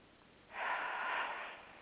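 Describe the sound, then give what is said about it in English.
A single deep inhalation through the nose, a soft airy rush that swells in about halfway through, holds for around a second, then tapers off. “Now at zero to reinforce, and now at one with a deep cleansing breath in”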